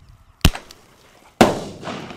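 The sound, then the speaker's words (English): Two sharp, loud bangs from a bird-banger firecracker shot from a two-barrel cap-gun launcher and exploding in midair. The second crack is followed by a longer rumbling decay. “He puts one banger in each barrel, pulls the trigger. This firecracker shoots out like 25 feet and explodes in midair.”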